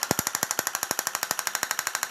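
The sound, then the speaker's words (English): A shockwave therapy device pulses in a rapid, even train of sharp mechanical knocks, roughly ten per second, each a short percussive tap with no pause between them. “What is that? That sounds like a doctor hitting a little hammer on your knee over and over and over again. That means we're healing. That's the sound of shockwave therapy.”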